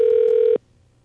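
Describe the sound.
A telephone ringback tone on an outgoing call sounds as a single steady, fairly loud electronic tone that cuts off abruptly after about half a second, leaving near silence.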